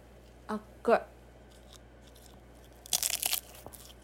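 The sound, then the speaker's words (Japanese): Crunchy bites and chewing of hot tarte tatin: two short, sharp crunches come first, then a longer crackling burst of chewing, all fairly faint against a quiet background. “一つ食べてみよう熱いです熱い熱い”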